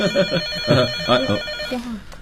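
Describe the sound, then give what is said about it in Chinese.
A telephone rings with a steady electronic tone that pulses a few times. “电话。”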